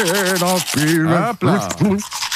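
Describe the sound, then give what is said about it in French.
Someone hums a melodic tune while brushing teeth with a toothbrush. The pitched, wavering hum stays loud and nearly continuous, with brief breaks, over a soft scrubbing sound. “prend la brosse à dents et chantonne en même temps, et ça donne ceci.”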